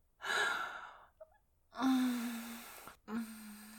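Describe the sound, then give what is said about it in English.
An inhaled breath, airy and fairly loud, taken once at the start, followed by a couple of low voiced hums. “take a nice little bit of breath. And back in.”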